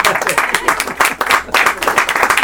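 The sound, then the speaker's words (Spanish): Applause from an audience at a book presentation evening, many hands clapping loudly in a dense stream that pulses and surges in uneven waves without easing off. “Pues vale, pues si queréis, vamos a aplaudirle, ¿no?”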